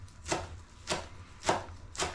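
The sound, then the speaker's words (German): Knife chopping fresh parsley on a board: four crisp, evenly spaced chops with bright, sharp attacks and no talk. “Packen wir uns einfach unser vorhin abgezupfeltes Zeug hier zusammen, schneiden es runter.”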